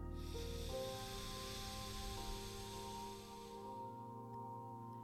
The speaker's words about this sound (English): Inhale through the right nostril, plug it, and exhale through the left.